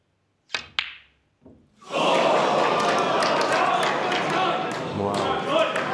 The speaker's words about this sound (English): And the best rest player in the world is one rest shot away, arguably, from a place in the final. That shot in the brown, if he doesn't hit that perfectly, the cue ball goes into the green.